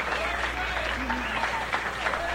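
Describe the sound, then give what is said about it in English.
An audience applauds and cheers in a tribute to the egg, a steady, dense wash of clapping with voices calling out over it. “We ought to give the lowly egg one round of applause. Yeah. Hooray for the eggs! Hooray! Hooray! Come on, let's hear it!”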